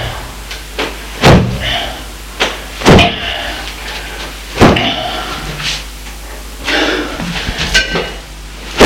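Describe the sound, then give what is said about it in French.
Sharp smacks of a ruler striking bare buttocks during a spanking: several hard, cracking hits spaced a second or more apart over a low, steady background. “Et le père frappe les fesses avec la règle.”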